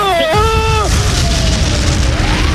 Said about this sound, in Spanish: tiene la bomba y esto va a explotar